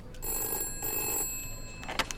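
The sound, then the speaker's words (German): A telephone bell rings in short repeated bursts, faint and heard alone without talk. “Die Universität Stanford ruft an.”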